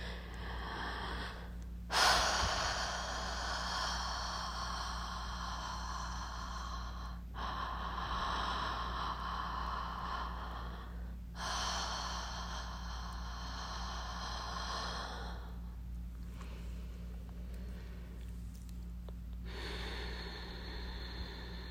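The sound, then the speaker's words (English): Continuous connected breathing during a guided breathwork session, with airy inhales and exhales flowing into one another without pauses. The steady breath is broken only by a few brief gaps over a low background hum, and nobody speaks. “Trusting the rhythm of your own breath here. Just allow this connected breath.”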